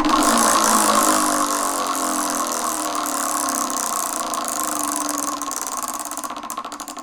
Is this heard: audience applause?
no